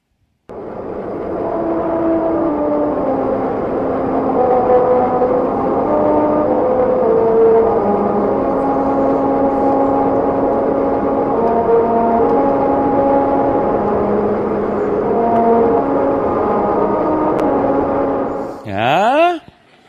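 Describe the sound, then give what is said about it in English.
A car drives over musical rumble strips cut to play "America the Beautiful" at 45 miles per hour, heard from inside the vehicle: a steady, loud buzzing drone whose pitch steps from note to note in a melody, running almost the whole clip before cutting off near the end. “designed to create the melody of the song "America the Beautiful" when you drive 45 miles per hour. Here's a video that captures the experience from inside a vehicle.”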